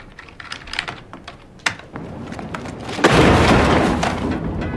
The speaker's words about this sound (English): go to Google Earth and type in your address.